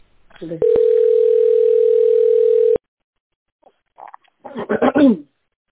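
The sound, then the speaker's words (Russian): Telephone line tone during a call transfer: one steady, loud, unbroken tone that holds for about two seconds, then stops abruptly, followed by a few brief, faint sounds and a short burst of voice. “Давайте я вас переведу сейчас по делу ВРТ, пожалуйста, подключайтесь. Хорошо? Хорошо, хорошо. Перевожу.”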